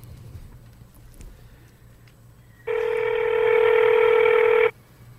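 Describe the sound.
A single sustained telephone tone while a call is placed to a convenience store: a steady, bright electronic beep lasting about two seconds, rising out of a low hum and then cutting off abruptly.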